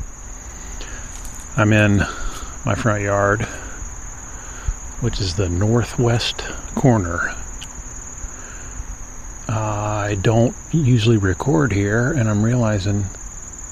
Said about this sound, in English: that very high-pitched insect sound you're hearing, it's definitely loudest in this section.